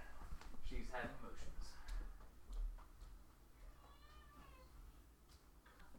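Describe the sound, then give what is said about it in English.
A domestic cat meows, with a loud, clear cry early on and a softer, wavering, drawn-out meow later, over quiet background noise. “After I take out the cat, because she's meowing.”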